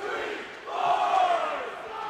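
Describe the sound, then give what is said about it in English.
A loud roar from a college student section at a hockey game in the third period, a sustained wash of cheering and yelling voices that swells in the middle and then eases slightly without fading out. “Merriman having a little bit of a back and forth with one of the student sections here. Definitely wondering how the student sections are affecting both teams in this third period. Definitely very loud right now.”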